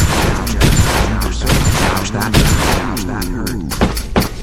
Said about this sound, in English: I believe it's a Desert Eagle. Not sure he should be using those sounds, but they're in here.